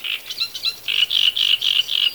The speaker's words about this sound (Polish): A trzciniak zdecydowanie. Ryba, ryba, ryba, rak, rak, rak, świeżbi, świeżbi, świeżbi, trap,